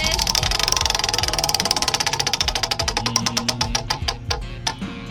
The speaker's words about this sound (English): You want to go ahead and spin the wheel of games?